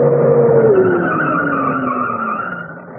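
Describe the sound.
A car pulls up to a stop with tires skidding, a loud, continuous squeal whose pitch slides steadily downward as it slows, easing off slightly at the end.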